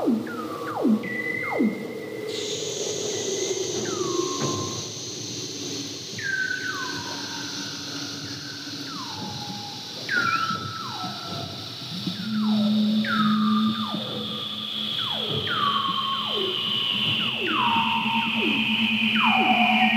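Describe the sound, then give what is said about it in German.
Weddell seal vocalizations: many descending chirps and whistled trills that sweep downward in pitch and repeat steadily, over a sustained high tone and, later, a steady low hum. “Ja, dann würde ich euch gerne die Weddellrobbe vorspielen.”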